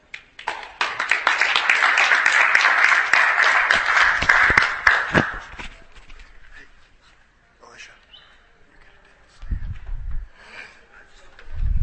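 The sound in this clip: An audience claps to welcome the next speaker, a full burst of applause lasting about five seconds before thinning out and fading, followed by a voice speaking.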